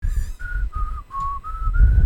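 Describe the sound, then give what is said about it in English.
A person whistles a short, slightly wavering tune of six held notes, each one separated by a tiny break, with a low rumbling noise underneath. “I'm not very good at whistling anymore, I guess.”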